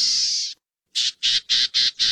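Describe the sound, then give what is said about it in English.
Buzzy, scratchy calls of a black-tailed gnatcatcher, a small bird: one long harsh buzz, a short gap, then five brief buzzy notes in quick, even succession, fairly loud and alone. “While the equally small black-tailed gnatcatcher puts it like this.”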